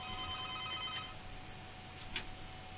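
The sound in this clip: An incoming call rings on a telephone: a bright, trilling electronic tone with steady harmonics sounds through the first second, then gives way to low background hiss, with a short click near the end.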